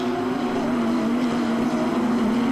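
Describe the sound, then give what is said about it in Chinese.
Continuous loud engine drone from GT race cars running nose to tail in a long line on a racing circuit, a sustained buzzing tone with little change. “我们这些全场这些GT赛车，还都是依次的排成一个长龙。”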